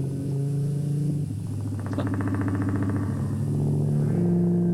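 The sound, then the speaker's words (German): Motorcycle engine drones at a low, buzzing pitch, breaking into a fast pulsing rattle in the middle before settling back into a steady hum, loud throughout with no talk. “Ja, aber das ist jetzt Motorrad. Das hört sich wie ein Motorrad an, ne? Das ist auch ein Motorrad.”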